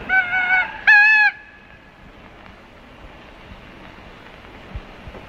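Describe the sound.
A toy rooster crows when pressed, giving two short, bright, honking electronic squawks in quick succession. A faint low rumble follows.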